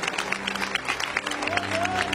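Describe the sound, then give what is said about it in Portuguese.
Applause greeting a pastor during a church service, a dense, steady clapping texture that continues throughout, with crowd noise mixed in. “Com aquelas palmas bonitas para Jesus, vamos receber o pastor Milton.”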